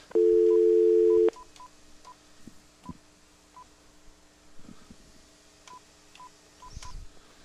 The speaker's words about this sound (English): Okay, try it again. I might have misdialed. I think I did.